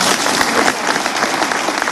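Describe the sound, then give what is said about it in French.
Enthusiastic audience applause at a jazz festival, a dense, steady roar of many hands clapping with no breaks, loud throughout. “Les applaudissements enthousiastes du public”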